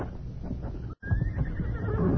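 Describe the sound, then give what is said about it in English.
A horse neighs beyond a house, a thin whinny standing out over dense low rumbling noise that fills the whole short stretch. “There. The horse again.”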